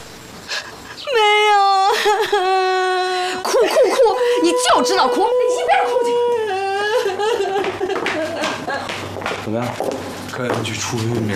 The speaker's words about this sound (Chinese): 哭哭哭！你就知道哭，你一边哭去。